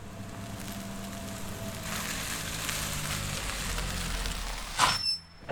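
A taxi pulling up on a hillside street: a steady low engine rumble and hum that holds, then drops away near the end after a brief burst of noise.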